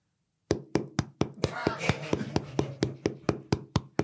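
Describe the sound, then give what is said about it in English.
A voice imitates lidless Tupperware pieces clacking together in a cupboard: a quick, even run of many sharp, hollow plastic-like clacks, fairly loud and with no talk over them. “two pieces of Tupperware without their lids clacking together in a cupboard. Just imagine that sound. Everybody's heard it. Everybody's fumbled around trying to get a lunchbox out the cupboard. Just wait for it.”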